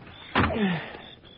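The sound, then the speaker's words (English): A room window is pushed open with a sudden knock, then a short scraping slide whose squeaky tone drops in pitch before fading into quiet hiss. It is a single movement with no voices. “It's stuffy in this room. I'll just open the window.”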